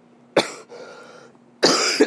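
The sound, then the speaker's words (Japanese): Coughing fits from someone choking on steam rising off hot soba noodles: two harsh, loud coughs with a breathy, raspy stretch between them, no talk. “湯気がこう口に持ってった時にこう喉をめっちゃ刺激して、湯気がすごいむせるんですね。”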